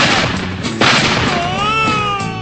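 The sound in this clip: A single sharp gunshot sound effect cracks out partway through, loud and abrupt, set among sustained tonal sounds that continue before and after the bang.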